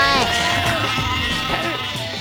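Loud, wavering sheep bleats run without a break, their quavering pitch rising and dipping in a nasal, strained tone that stays strong from start to finish.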